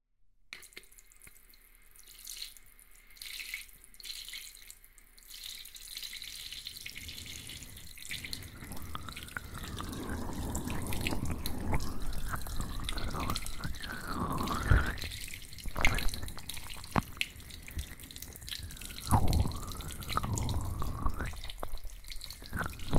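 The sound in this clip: Water running to rinse off before a bath, a splashing rush with dripping that starts soft and grows steadier and louder after the first few seconds, with no talk.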